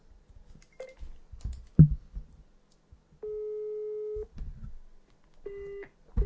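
Telephone call tones while dialing someone: steady, mid-pitched tones repeat in a few long, even pulses with silent gaps, after a stretch of soft clicking taps.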